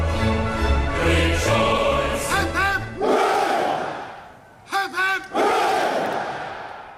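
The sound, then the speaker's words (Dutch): Full church audience at a royal inauguration shouting hip hip hurray: loud massed voices answer short calls with swelling cheers, the call-and-roar pattern repeating. “Ja, hip hip hoera, dat werd uitgesproken door een volle kerkzaal die hier op dit moment ook.”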